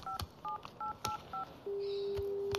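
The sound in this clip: Keypad tones of a telephone number being dialled: five short, evenly spaced two-note beeps with light clicks, then a steady unbroken tone that holds to the end.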